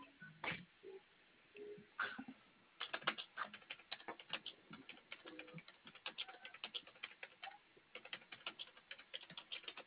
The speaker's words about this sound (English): You type too fast. You embarrass me.